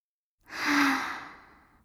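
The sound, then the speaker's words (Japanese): A single slow, deep breath: a soft airy sigh that begins with a brief voiced tone, swells, then gradually fades out. “閉じたらゆっくり深呼吸。すー、はー、すー、”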